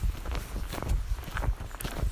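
Footsteps of a person walking up a path outdoors: a steady series of soft, dull thuds, fairly quiet, with no talking over them.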